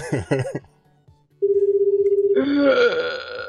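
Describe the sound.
A telephone rings on the line, one short buzzing ring tone lasting about a second, with a voice just before it and more sound right after.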